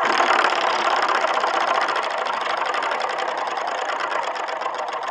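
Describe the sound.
A prize wheel spins and clicks: rapid, steady ticking of the pointer against the pegs that continues without a break for about five seconds, with no voices over it.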